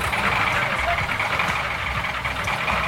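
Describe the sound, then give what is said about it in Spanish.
A Ford truck fitted with a Caterpillar engine runs with a continuous low rumbling drone and dense mechanical noise, holding a steady level throughout without clear changes in pace. “¿La escuchan, no? Así suena el motor de una Ford Caterpillar”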